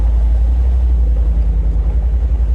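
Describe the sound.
Deep, loud engine rumble from a V8-powered Jeep Wrangler concept with 450 pound-feet of torque. The low, steady drone holds without a break and has no talk over it.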